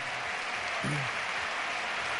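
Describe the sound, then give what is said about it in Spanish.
A stadium ovation for footballer Navas on his 500th match, a sustained roar of clapping crowd noise at steady volume, with a brief voice rising over it near the middle. “Y ovación a Navas también. El homenaje que de los 500 partidos, sí.”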